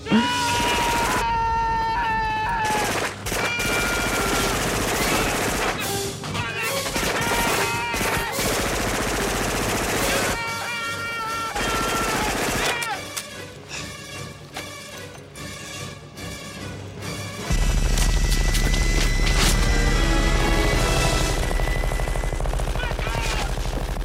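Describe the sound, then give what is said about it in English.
Minigun fire from the 1987 film Predator in a wooded jungle setting: long, loud bursts of extremely rapid automatic shooting with explosive blasts, ending in a heavier stretch of low rumbling fire. “I don't know how they exploded the woods. I know they had to slow down the minigun because it's actually too fast to”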